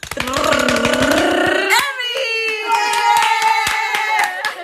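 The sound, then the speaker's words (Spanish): Hands drum out a drumroll to introduce a guest, a fast, loud patter of taps that spreads out a little later on, while voices hold vocalized tones over it. “chicas, un redoble para eh, presentar a la invitada de este capítulo”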